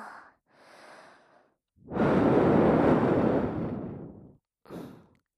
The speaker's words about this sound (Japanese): こうして息を吹きかけて、耳たぶちゃんを温めたり